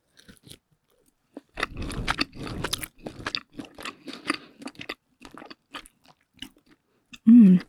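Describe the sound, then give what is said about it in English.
Chewing thinly sliced, well-seasoned lemongrass chili beef from a noodle dish: many moist, irregular bites and crunchy mouth clicks in a loose rhythm, loud and close, with brief pauses between. “It's very well seasoned and it's thinly cut, so it's not tough to chew at all.”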